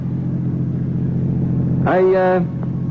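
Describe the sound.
A car's engine drones steadily as it drives through a burned-out, abandoned part of town, a low even hum that holds throughout, with a brief voiced sound rising over it near the end.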